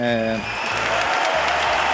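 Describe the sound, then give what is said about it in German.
Crowd applause for Rafael Nadal at the Davis Cup: a dense, steady wash of clapping that holds at an even level throughout, with a voice and some tonal sound over its opening. “Die haben sich dementsprechend zurückrevanchiert mit Applaus.”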